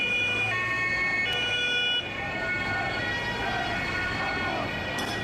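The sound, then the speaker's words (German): Police vehicles drive up with sirens wailing at the corner of Max-Brauer-Allee and Holstenstraße. Loud siren tones step between pitches over a steady bed of traffic noise. “Hier sind nun, fahren jetzt Polizisten auf. Wollen, glaube ich, nur mal kurz durch.”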